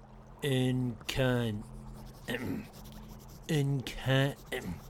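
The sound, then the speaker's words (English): A pen scratches on paper, a soft rasping in the gaps between people talking. “What are you writing? Scientist things, please, carry on.”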